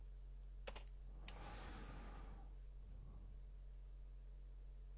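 Keystrokes on a computer keyboard as a web address is typed: a few faint, sharp clicks over steady background hiss.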